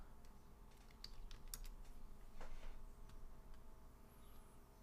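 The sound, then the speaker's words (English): Faint typing on a computer keyboard: irregular light clicks and taps, with a few sharper keystrokes standing out, and no talking. “Type, type, type.”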